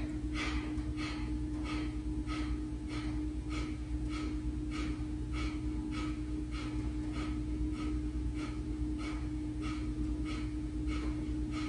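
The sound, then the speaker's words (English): Skull shining breath: many rapid, forceful exhales through the nose in a steady, even rhythm, each a short puff of breathy noise, over a constant low background hum. “On your next inhale, we'll start another round of skull shining breath. And exhale, exhale, exhale, exhale.”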